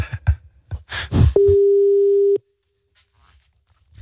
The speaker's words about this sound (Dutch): We gaan even bellen.